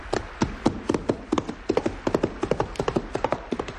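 Hooves of a saddled horse clip-clopping at a walk, many crisp, hollow knocks falling in a steady, regular rhythm, clear and with no voices.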